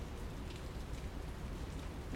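Steady rain falls on bushes sheltered by a large tree, a dense, even hiss of drops with no distinct individual hits, no voices and no pauses.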